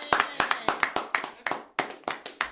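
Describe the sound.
Clapping hands applaud performers at the end of a set: a brisk, even run of many sharp, bright claps that fill the moment with steady rhythm.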